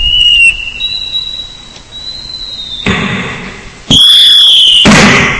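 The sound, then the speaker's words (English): Explosion and whistle sound effects played on a piano keyboard: a high whistling tone that drifts in pitch, a burst of rushing noise midway, then a loud boom with a piercing whistle near the end. “Trying to blow my house up. Not really. It's just sound effects on the piano.”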